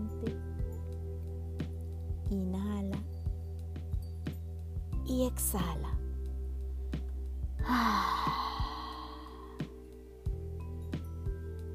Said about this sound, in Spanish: inhala y exhala.